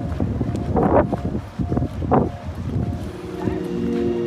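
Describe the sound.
Gusty wind blowing outdoors in the wake of a tornado. It is a low, rumbling rush that buffets the microphone throughout, swelling and easing, with indistinct voice-like murmurs mixed in.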